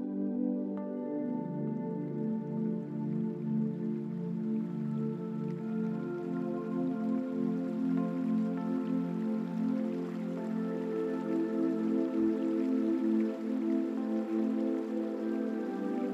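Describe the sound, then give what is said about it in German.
A small river rushes and flows in an even, continuous wash of water noise that holds steady throughout, with a sustained low tone underneath. “Du kannst schon das Rauschen des Wassers wahrnehmen.”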